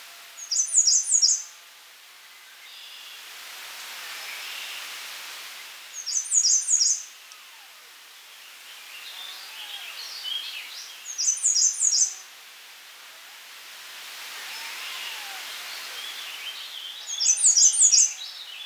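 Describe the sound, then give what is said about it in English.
Wood thrush song: four bright, fluttering phrases ring out about five seconds apart, each a short, high, liquid burst, with faint quieter calls in the gaps between them. “Wood thrush.”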